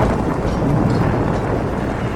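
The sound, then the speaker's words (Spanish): In a radio drama, explosions and fire destroy storehouses at a secret island hideout, heard as a continuous deep roaring rumble. It stays loud and steady throughout, with no distinct single blasts. “Las explosiones se suceden una a otra, haciendo que el fuego destruya dos bodegas del refugio.”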